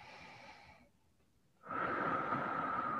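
A deep breath drawn audibly through the airway: one soft breath sound, a short pause, then a longer, louder breath sound that holds to the end.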